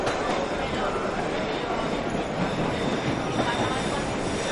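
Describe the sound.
A subway train running, heard from inside a metro car as a loud, continuous rumbling roar with rattling and a faint metallic squeal, unbroken throughout.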